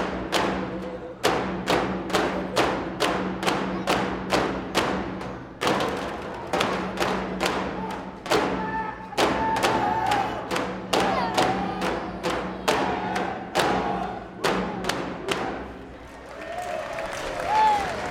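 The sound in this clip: A dancer's drum is played on stage during a dance group's final song at a performance, with steady, even beats at a moderate tempo throughout. A voice sings over the beats in the second half.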